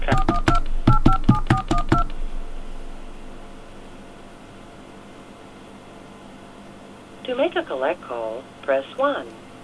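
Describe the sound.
Touch-tone telephone keys dial a number in a quick burst of short, sharp beeps. A hissy quiet follows, and then a voice talks.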